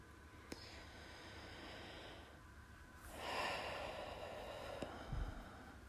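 Slow, deep breathing during a yoga breath practice: faint, airy breaths with one long swelling breath in the middle and a short snort-like puff of air near the end.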